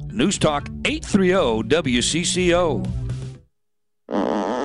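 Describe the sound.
A fart sound effect, a short loud buzzy blast that bursts in alone at the very end, right after a stretch of talk and a brief silence.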